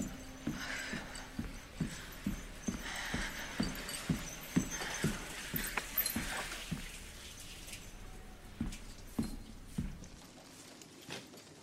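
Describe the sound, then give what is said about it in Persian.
Footsteps climbing stairs in a drama scene: many evenly paced, dull thudding steps in a steady rhythm, with the steps thinning out toward the end. “ماگرا از پله ها بالا میره.”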